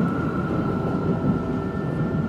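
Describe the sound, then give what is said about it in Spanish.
A metro train runs past stations without stopping, producing a loud, steady rumble with a constant high-pitched whine and no voices. “El metro avanza sin parar en las estaciones. Pasa de largo por todos los andenes.”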